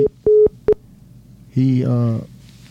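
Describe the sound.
After a caller hangs up, the telephone line gives three short, steady electronic beeps at one pitch, then a pause before a voice begins speaking.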